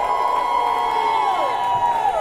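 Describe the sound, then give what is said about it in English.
Church audience cheering during a service, with a long, high sustained whoop that falls in pitch near the end over steady crowd noise. “Oh, clap your hands, all ye people. Give the Lord a shout.”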